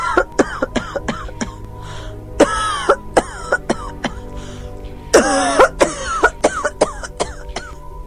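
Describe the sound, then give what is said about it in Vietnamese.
An elderly woman's violent coughing fit: many harsh, rasping hacks come in quick, irregular succession, loud and strained, with voiced, throaty tones between the bursts. “Bà Sang bỗng lên cơn ho dữ dội.”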